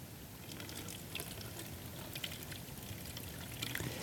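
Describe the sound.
Water poured steadily into an already full container until it overflows, a faint, continuous trickling and splashing with a few brighter drips.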